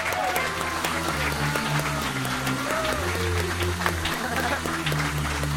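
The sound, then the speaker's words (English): Dense, steady applause and cheering from a live comedy show audience, welcoming performers onto the stage, with music running underneath throughout. “Put your hands together for two of the best.”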